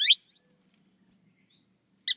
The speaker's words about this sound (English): While nearby, a thick-billed kingbird calls.